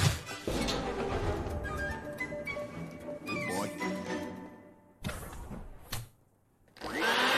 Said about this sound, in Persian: جارو واسه من یه لوله بزرگتر لازم داری.